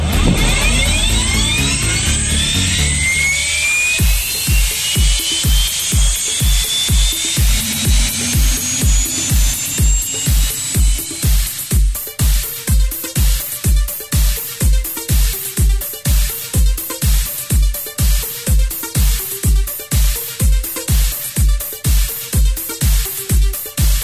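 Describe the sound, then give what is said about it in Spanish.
An aircraft engine starts up in a parking area at Quilmes before a flight. A loud whine rises in pitch over the first few seconds, then gives way to a steady train of regular rhythmic pulses that continues to the end. “Quilmes, aquí Sir Robert Mix, en Parking Q, solicito puesta en marcha para posterior plan de vuelo presentado.”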